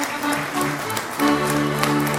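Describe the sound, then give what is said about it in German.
Audience applause at the 25th anniversary celebration of the Neue Schmiede, a dense, steady clatter of hands throughout, with a voice audible over it. “Ich finde, das ist schon mal ein Applaus wert, dass die neue Schmiede”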